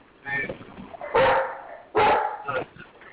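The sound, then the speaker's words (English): A dog barks in the background, two loud, sharp barks a moment apart, heard amid people talking. “Who got a dog barking in the background?”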